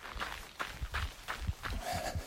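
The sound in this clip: Footsteps on a road in Maine, crunching over granular snow mixed with sand: many soft, regular steps at a steady walking pace, each a short gritty crunch.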